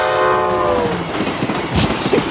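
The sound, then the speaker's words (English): Several trains pass: a loud, blaring horn opens, then fades into continuous rumbling and the rhythmic clatter of rail cars, with no voices. “Yes, folks, that's the sound of a train passing. Actually, several trains passing.”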